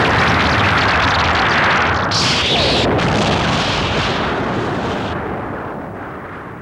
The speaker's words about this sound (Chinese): 我们离开这里远一点，快要爆炸了，快跑啊！